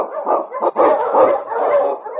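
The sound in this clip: Sled dog huskies barking and yipping as a pack, a loud, dense run of overlapping barks that carries on without a break.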